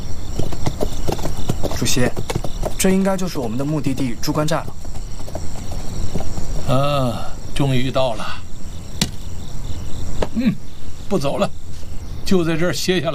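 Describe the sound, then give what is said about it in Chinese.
A big white horse's hooves clip-clop in a steady rhythm while it is ridden, with crickets chirping faintly in the background and people talking over the hoofbeats. “主席，您就骑一会儿马吧。哎，这匹大白马跟了我多年，是我无言的战友啊，要善待他。这些天，我们分食了他的口粮黑豆，还骑着他翻山越岭。”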